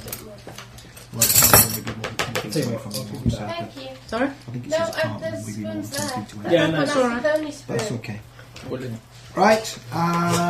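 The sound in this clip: Spoons clink together during a tabletop game session, with a brief burst of bright metallic clinking early on, then a few faint taps, all under steady conversation.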